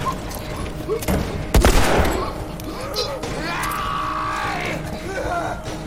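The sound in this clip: Gunfire in a video game: a dense fusillade of shots with one loud, sharp blast, set against continuous game noise with voices in the background.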